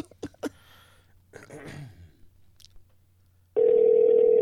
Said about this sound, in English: we called him, but he never picks up. But we're going to just leave a voicemail.